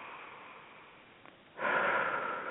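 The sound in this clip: A person breathing out slowly during a relaxation exercise: after faint, quiet hiss, a steady, airy exhale swells in and holds evenly to the end.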